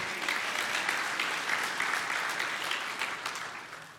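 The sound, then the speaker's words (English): A church audience claps its hands in steady, dense applause that holds evenly and then tapers off slightly at the end. “If you believe that, let me hear your hands.”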